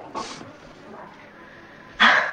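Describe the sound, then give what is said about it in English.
A big dog snarls in two short, harsh bursts separated by a quiet gap, the second burst louder and longer than the first. “A big dog jumps up, snarling.”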